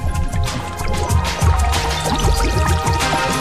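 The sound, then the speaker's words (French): Salted water boiling in a pot on the stove before pasta goes in: dense, continuous bubbling with scattered pops and gurgles, loud and steady throughout. “Et ça y est, ça boue, ça boue, ça boue, ça boue, oh oui, ça boue, fucking bubbles.”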